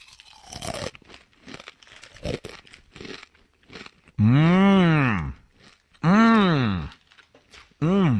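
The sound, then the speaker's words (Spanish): Takis Fuego chips are crunched from the bag in short, crisp bursts, followed by three loud, drawn-out tonal sounds that rise and fall in pitch. “Es una bolsa de Takis. Fuego. ¡Oh, qué rico!”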